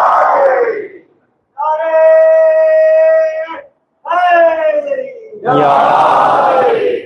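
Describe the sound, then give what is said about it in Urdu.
A crowd at a religious gathering shouts the Naara-e-Haidari slogan: several long, loud, sustained shouted phrases separated by brief pauses, the voices merging into a strong harmonic roar with a falling pitch on one phrase. “بسم اللہ نعرہ لگا سکتے ہیں، نعرہ حیدری”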